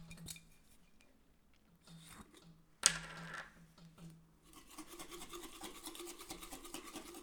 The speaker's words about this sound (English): I had to show y'all this jar that I made. The fact that it's nothing actually flies out of it, and I have to stick my hand in it, and I'm still trying to mix it up